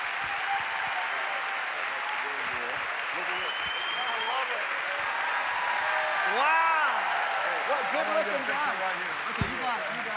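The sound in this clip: Congregation applauding to welcome a preacher at a church service: steady, dense clapping that carries through the whole clip, with voices and some tonal sound over it.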